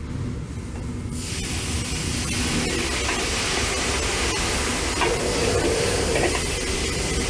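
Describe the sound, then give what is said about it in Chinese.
Loud, steady hissing sizzle of beef being stir-fried until dry and fragrant, with a mixed seasoning sauce going in. The sizzle starts after about a second and then holds as a dense, continuous crackle. “煸炒三分钟之后，牛肉已经煸干煸香，然后加入调好的一半料汁”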